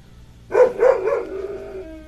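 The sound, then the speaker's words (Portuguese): A dog barks a few quick, loud times, then the last bark stretches into a sustained, howling whine that slowly fades, with no talk over it. “lá vem o pai da Eliane, pelo cachorro latir aí, ó.”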